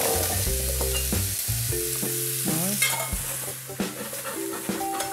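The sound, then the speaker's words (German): Vegetables searing in a hot pan with tomato paste, with a steady sizzle and repeated stirring scrapes over the full few seconds, plus a few sharper clicks toward the end. “Das Gemüse braten die beiden mit Tomatenmark scharf an. So bilden sich Röstaromen.”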